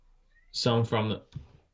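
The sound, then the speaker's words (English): A domestic male cat meows while wanting to be let in. A loud, drawn-out two-part meow is followed by a shorter, softer call. “did you hear that? Even your cat's tired of the bullshit. Yeah, he wants in.”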